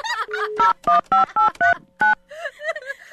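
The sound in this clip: Telephone keypad tones dial a phone number: six short, evenly pitched beeps in a steady rhythm, with talking before and after them.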